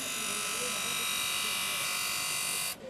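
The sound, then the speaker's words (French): A finishing machine with a felt flap disc polishes a knife blade at a knife sharpener's market stand. It makes a steady, bright buzzing whine at constant loudness, then cuts off abruptly just before the end. “Je vais aller sur une machine qui me sert à la finition. Un disque avec des lamelles en feutre.”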